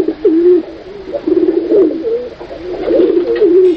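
A white pigeon cooing: a continuous run of loud, low, throaty, warbling coos with a slightly wavering pitch, heard alone without talk.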